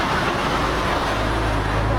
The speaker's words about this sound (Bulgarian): Камионите продължават. Продължават. И през полицейската кола ще минат.